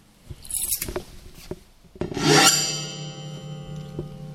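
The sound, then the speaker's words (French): Scratching and rubbing on wood in an early-childhood music session for toddlers and parents. A few dry, rasping strokes come first, then a louder struck tone rings out with a slowly fading, resonant hum. “et donc on apprend à gratter”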